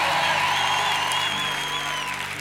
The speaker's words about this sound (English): if you're happy and you know it, clap your hands in Jesus' name.